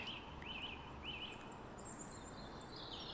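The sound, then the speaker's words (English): Faint song of nightingales high in a tree in an urban city setting. Thin, looping whistles and chirps are heard over a steady background hum of city noise. “I can see nightingales barely at the top of the tree.”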